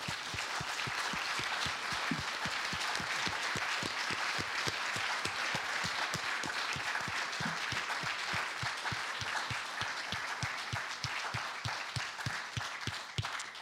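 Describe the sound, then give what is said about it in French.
Audience applause rises as a steady, dense wash of clapping. It holds evenly at full strength through the whole stretch without a break. “Oui, alors à vous, ouais, on va l'applaudir.”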